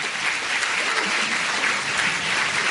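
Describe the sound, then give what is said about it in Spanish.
Audience applause at a conference talk on illness and consciousness: a dense, steady wash of clapping that holds at an even level throughout, with no single voice standing out. “un aplauso para Emilio, por supuesto”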